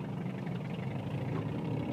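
A motorcycle engine runs with a dense, steady low rumble and rough mid-range growl, holding at a fairly even loudness throughout with no clear rise or fall in pitch.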